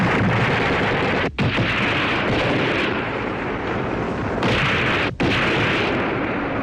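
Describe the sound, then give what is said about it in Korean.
Heavy gunfire from troops on a high hilltop shooting down the slope: a loud, dense, continuous barrage of overlapping shots, with two brief breaks in the roar. “이영의 한계련이 벌써 꽤나 높은 고지에 올라가서 아래쪽에 대고 총을 쏘고 있었다.”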